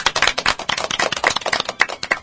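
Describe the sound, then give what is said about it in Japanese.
Applause from a small group after a closing exchange of thanks: many crisp, irregular claps overlap in a brisk, steady patter lasting about two seconds. “拍手。”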